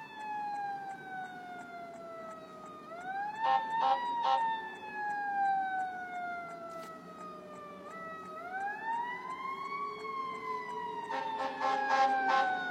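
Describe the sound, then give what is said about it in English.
A fire truck siren passes outside an office in a long, slowly falling and rising wail. Two clusters of short, blaring horn blasts cut in, one early and one near the end. “Oh, no, you're right. No, that is a fire truck.”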